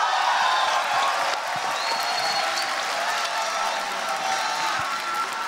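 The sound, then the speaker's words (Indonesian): A stand-up comedy audience applauds a comedian with dense, steady clapping that holds at an even, loud level throughout. “Sekali lagi tepuk tangan buat Popon Kerok.”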